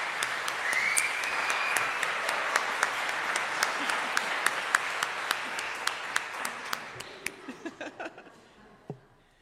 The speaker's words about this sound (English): And I would also like to offer an official welcome back to Reverend Brian Mason as he returns from his sabbatical. So if we could welcome him back.